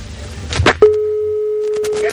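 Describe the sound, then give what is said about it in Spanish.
Telephone beep after a call is hung up: a single steady, mid-pitched tone that holds for over a second, following a short stretch of voice. “quería decir que perdón por el pitido del teléfono”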